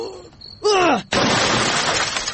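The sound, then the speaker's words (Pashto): Glass shattering as a television breaks, a sudden loud burst of crashing, crackling noise that lasts about a second. A short voice cry with falling pitch comes just before it. “تلویزیون دی مات که؟”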